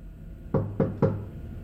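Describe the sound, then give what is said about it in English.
Three knocks sound on an office door, quick and evenly spaced and fairly soft, each a short dull thump followed by a brief ring. Near silence surrounds them. “Bill walks down there, hesitates, and then knocks.”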